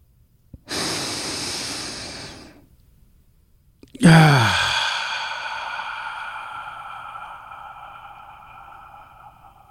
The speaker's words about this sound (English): let's take that deep breath